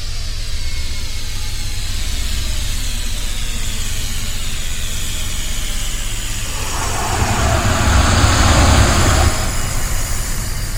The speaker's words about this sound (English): Warp jump complete. We are free to navigate.